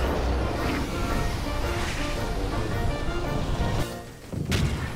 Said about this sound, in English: The generals never listen to me. Firing cannonballs.